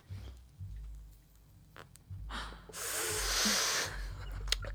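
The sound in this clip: Someone takes a hit of weed, drawing in smoke. Low, faint rumbling is followed by a long, rushing inhale that rises to a loud hiss and then fades.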